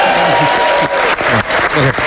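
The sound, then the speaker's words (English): A crowd applauds and cheers to welcome a guest on stage, loud dense clapping with voices rising through it and a few brief dips. “Can we get a big cheer for David Brady, please?”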